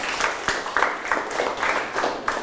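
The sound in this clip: Scattered hand claps from students applauding themselves at the end of a language lesson: a sparse, irregular patter of separate claps, fairly faint, with no talk over it.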